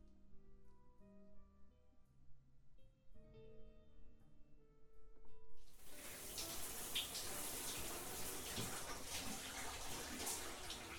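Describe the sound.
Water running to fill a bath: a strong, steady gushing rush that begins abruptly about halfway through, after a near-quiet stretch with faint tones, and continues evenly to the end.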